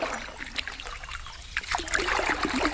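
Oars dipping into marsh water beside a small wooden rowing boat: soft, faint trickles, drips and light splashes in a gentle, irregular rhythm.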